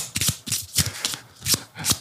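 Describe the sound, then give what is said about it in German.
Playing cards being spread out across the floor give several brisk, papery swishes and slides in quick succession, loud and clear with no talking. “Lehnen Sie sich zurück und genießen Sie, wie ich alle Karten auf dem Boden verteile.”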